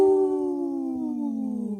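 A wolf howls in one long, smooth, tonal cry that slides slowly downward in pitch and holds steady in loudness.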